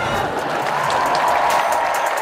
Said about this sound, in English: This is like that. Please clap.